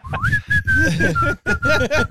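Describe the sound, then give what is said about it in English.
A person whistles a melody in a blues song on an album: clear, sustained mid-high notes in several phrases separated by brief breaks. “That's you whistling.”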